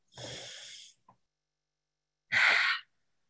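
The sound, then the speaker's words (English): A deep breath in and out: a long, airy inhale, a quiet pause, then a shorter, forceful breathy exhale, with no talking. “Let's all take a nice deep breath.”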